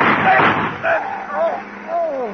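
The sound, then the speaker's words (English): A sharp gunshot in a radio drama bursts out at the start, followed by a few strained vocal sounds rising and falling in pitch. “Help me, Danny. I've been shot.”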